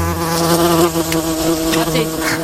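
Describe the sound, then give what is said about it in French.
Mosquitoes buzz in a continuous, whining drone with rich overtones, steady and fairly loud for the whole stretch with no voices. “Raté, ils sont toujours là, les moustiques qui nous envahissent et qui continuent de nous envahir en cette fin septembre.”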